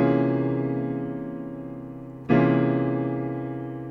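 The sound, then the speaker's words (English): A dense keyboard chord, a D-flat major triad in the right hand over a C dominant seventh in the left, rings out and slowly decays, then is struck again and sustains, with no talking. “So this is a D flat triad in my right hand against 1, 3 dominant 7 in the key of C in my left.”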